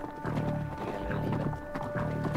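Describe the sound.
Hooves of horses ridden hard in flight from a pursuing troop, loud and steady clip-clopping in a fast, continuous beat that fills the whole stretch without pause.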